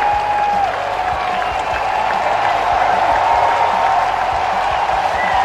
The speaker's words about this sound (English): And listen to the hand again for the Nationals fans.